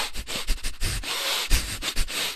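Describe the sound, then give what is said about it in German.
Rapid, chaotic breathing in and out through the nose, as fast and intense as possible, in a breathing exercise: many quick, uneven sniffing bursts of air in an irregular, jerky rhythm. “dieser Phase atmest du durch die Nase ein und aus, und zwar so intensiv, so schnell und so chaotisch und so durcheinander wie möglich.”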